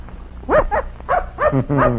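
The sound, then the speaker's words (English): A young hound puppy on its first outing with a hunting pack gives five quick, high, yelping barks in a short, uneven series, with no other sound. “Say, this dog don't look big enough to travel with a pack. He's still a puppy.”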